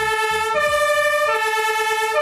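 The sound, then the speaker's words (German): Fire engine siren from a German youth fire brigade's firefighting group vehicle, a steady two-tone horn switching between a higher and a lower pitch, loud and alone with no talking. “Da ist unser Löschgruppenfahrzeug”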